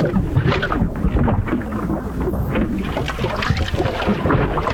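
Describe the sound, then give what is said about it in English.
Watery gurgling from a clogged drain, a continuous dense churning rumble with constant small fluctuations in loudness from start to finish. “Uh-oh, is that another clogged drain?”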